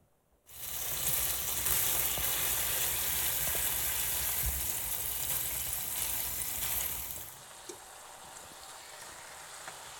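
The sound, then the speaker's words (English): Strips of bacon hit hot olive oil in a pan and set off a loud, dense sizzle. The crackle holds steady for several seconds, then drops to a quieter, softer frying hiss near the end. “so I got a little olive oil in there. And we'll see if that's enough. I think it will be. But I'm going to put some strips of bacon in here. Bacon makes everything taste much better.”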